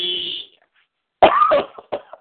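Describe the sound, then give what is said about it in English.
Coughing: a short run of a few loud, rough coughs, the first one longer and harsh, then a brief quieter one. “Oh, I can't do it. It makes me cough.”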